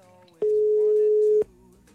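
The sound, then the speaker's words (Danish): An outgoing telephone call rings out with a single steady, mid-pitched ringback tone lasting about one second, starting and stopping abruptly between short stretches of quiet. “Jeg håber, der er nogen, der tager telefonen. Prøv at ringe nu her.”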